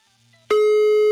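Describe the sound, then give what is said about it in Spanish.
A telephone tone sounds while a number is being dialled: after a quiet start, a steady, loud, single-pitched tone begins midway and holds unbroken to the end. “Ahí está marcando ya. A ver si nos contesta. Está sonando, mano, ya está sonando.”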